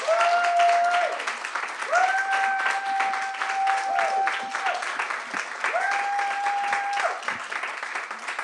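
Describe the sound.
Audience applause welcoming a novelist to speak, a dense, steady wash of clapping from many hands that carries on for the full eight seconds without letting up.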